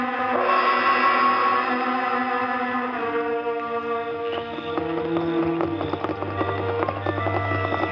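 Hoofbeats of horses ridden at night and reined in behind a sheriff's home, a rapid clatter that enters midway beneath sustained orchestral music.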